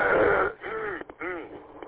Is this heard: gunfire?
no